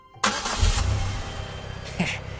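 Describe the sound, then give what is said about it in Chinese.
A car engine starts with an abrupt catch and then settles into a steady low rumble, with a brief louder surge near the end. “弗雷德发动了汽车。”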